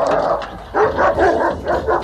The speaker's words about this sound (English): Oh, no. Now there's not a dog. There are many dogs.